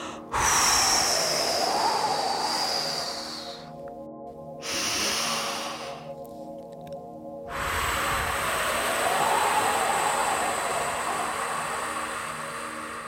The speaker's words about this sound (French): grande inspiration. C'est-à-dire que l'on fait entrer de l'air dans nos poumons. Ça fait gonfler le ventre. Puis ensuite, on va souffler l'air le plus longtemps possible